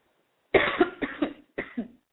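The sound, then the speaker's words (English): Coughing fit from someone choking: a rapid run of harsh, loud coughs in two bursts, the first longer with about four hacks, then a short pause and a final pair. “Excuse me, I'm so sorry. I can't stop choking.”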